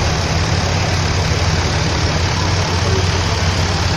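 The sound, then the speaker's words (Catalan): Tractors idle while blocking roads in a blockade, a constant, dense low engine rumble that holds steady throughout without breaks. “Aquest era el soroll dels tractors que bloquejaven les carreteres.”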